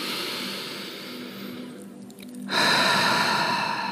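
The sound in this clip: Deep breathing during a guided meditation: a long, soft, airy inhale tapers off, followed by a short lull, then a fuller, louder breathy exhale through the final second and a half.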